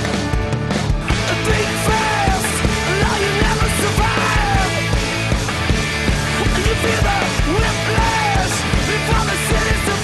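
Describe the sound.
Hardcore punk rock by a Los Angeles band, a song from a 2008 album: loud, dense, driving music with raw yelled vocals over pounding drums and distorted instruments, intense and unbroken throughout.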